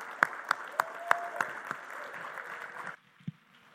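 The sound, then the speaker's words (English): Congregation applauding a welcomed guest at a church service at Erie Christian Fellowship Church: dense, sustained clapping with a few sharp individual claps standing out, cutting off abruptly near the end before one last faint clap. “So we just want to give you a warm Erie Christian Fellowship Church welcome. Let's give him a hand.”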